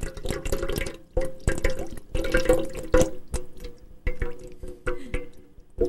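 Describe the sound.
Someone urinating, heard as uneven liquid dribbling and trickling in irregular splashy bursts with short pauses between them and no talk.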